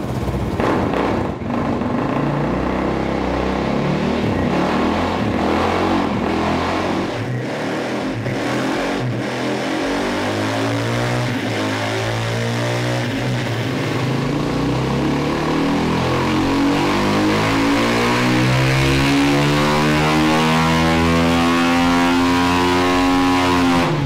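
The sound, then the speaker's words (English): A GasGas 450 motorcycle engine revs hard and loud, its buzzing harmonic whine climbing steadily in pitch through the second half as the throttle is held open. “What do you reckon this is going to put out? Let me know your guesses down below in the comments. What horsepower does a GasGas 450 put out?”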